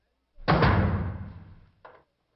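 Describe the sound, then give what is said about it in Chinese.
A door slams shut as a guard closes the doors. One heavy booming impact fades over about a second, then a brief, smaller knock follows. “关上门，把门都关上。”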